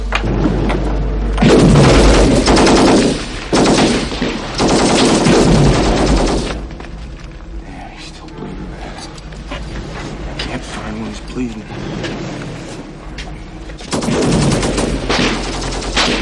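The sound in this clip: Machine-gun and gunfire from a 1984 war film, heard as loud, dense volleys of bursts that ease into a quieter, rumbling stretch in the middle before another heavy burst near the end.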